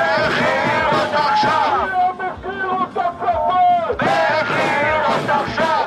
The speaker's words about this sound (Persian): همزمان با شکست مذاکرات آتش بس روز شنبه در تل آویو، هزاران اسرائیلی با برپایی تظاهراتی گسترده خواستار آزادی فوری گروگان‌های اسرائیلی از دست حماس شدند.